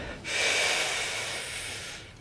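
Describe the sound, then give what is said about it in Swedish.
A deep inhale: one long, steady, airy rush of breath that swells quickly and holds for nearly two seconds before stopping, with no talk over it. “Andas in.”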